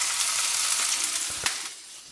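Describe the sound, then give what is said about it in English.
Onion and garlic sizzle in hot olive oil in a cast iron skillet, giving a steady, bright hiss with a few sharp crackles that softens slightly near the end. “We're going back over to our olive oil, and I'm going to add all the onion in, as well as the garlic.”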